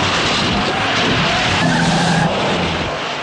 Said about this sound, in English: The guards aggressively plow into other cars to make a path. Knock him out of the way! They T-bone another car, pushing it out of the way.